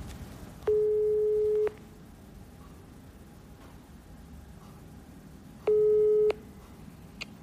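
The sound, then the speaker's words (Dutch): Ringback tone on an outgoing telephone call: two steady, even tones about a second long, separated by several seconds of faint line hiss, with no talk. “Zo, het is tijd om iemand te bellen. Kijken of die opneemt.”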